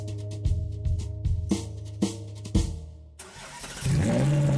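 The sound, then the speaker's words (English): A crimson Ferrari engine starts, with several sharp cranking pulses over a low hum before the engine catches into a loud, steady roar. “Start up your crimson Ferrari on the street and watch the heads turn.”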